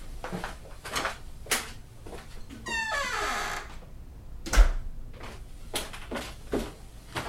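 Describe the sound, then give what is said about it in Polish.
An apartment door swings shut, a creaking hinge squeak followed by a dull, low thud. “Tych do łazienki nie zamykaj, dużo tam pary po prysznicu. Zamknij te do mieszkania. Do mieszkania? Nie zamknąłem? Nie. Lecę.”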